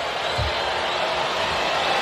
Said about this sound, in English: You hear the cheering in the background.